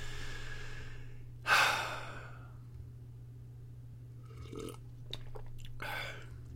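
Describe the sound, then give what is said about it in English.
Sipping eggnog spiked with Captain Morgan's rum: one loud breathy gulp or exhale early on, followed by a few soft mouth and swallowing sounds, all quiet over a steady low hum with no talking. “I'm drinking eggnog, spiked with a little Captain Morgan's. It's delicious. It goes down smooth and easy.”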